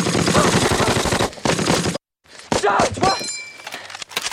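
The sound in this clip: Gunfire in a war film battle scene: rapid machine-gun bursts crackle loudly, broken by a moment of silence, then single shots and sharp impacts, with men shouting throughout.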